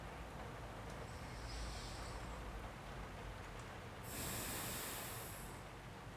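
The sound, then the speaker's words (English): Slow, deep breathing, two soft hissing breaths several seconds apart, the second louder and fuller, over a faint steady hiss. “Now breathe with me. Nice and slow.”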